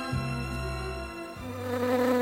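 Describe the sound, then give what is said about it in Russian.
A bee flies past with a steady droning buzz that shifts in pitch midway as it passes. “Мимо пролетала пчела.”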